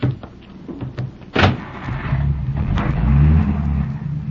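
A car driving off: a sharp thump like a door closing, then the engine grows into a louder, steady drone that swells toward the end.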